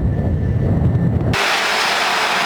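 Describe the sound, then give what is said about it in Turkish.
Firefighting helicopters fly over forest fires in Antalya. A loud, low engine rumble with rotor-like pulsing cuts abruptly partway through to a steady, broad roaring hiss, with no talk. “Helikopterlerin biri gitti, biri geldi.”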